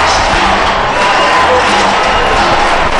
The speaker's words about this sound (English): Man, I hope you can hear that bird crowd right now. Big time go bird go chant.